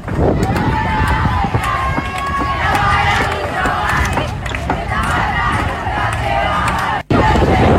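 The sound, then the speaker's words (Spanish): A women's team celebrates reaching the playoffs in the River Plate annex stands beside an artificial-turf pitch, with loud continuous shouting and cheering from many voices and a brief dropout near the end. “lo lograron y lo celebraron así en los tablones del anexo de River Plate”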